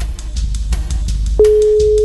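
Telephone ringing tone during a call: a steady, single-pitched tone begins about halfway through and holds unbroken to the end, following a stretch of soft, rhythmic background pulses.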